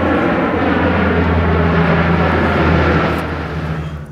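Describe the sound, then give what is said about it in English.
A Lockheed CP-140 Aurora aircraft on a Remembrance Day flyby from its base in Comox over a Vancouver long-term care home for veterans gives a loud, steady droning roar with a low tonal hum that eases slightly near the end. “Lockheed CP 140 Aurora aircraft conducting a flyby from its base in Comox to fly over St. Vincent's Brock Fahrni, a long term care home for veterans in Vancouver”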